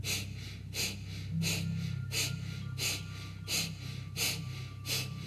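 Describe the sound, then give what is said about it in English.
Forceful exhalations through the nose during a breathing exercise: a quiet, even series of sharp airy puffs, roughly one every 0.7 seconds, over a low steady hum. “The inhale is natural, just sucks back into the body. Focus on your exhale.”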